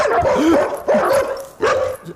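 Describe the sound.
A dog barks and yips in a few short, loud bursts, mid-pitched, with whining tones trailing between them.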